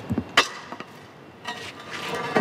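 A metal manhole cover is pushed over cobblestones with a long tool on a street in central Rome in the early morning, giving a few sharp metallic clanks and light scrapes spread across a quieter background.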